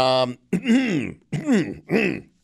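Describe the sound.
Throat clearing in a few voiced, groaning bursts, loud and close, separated by short pauses.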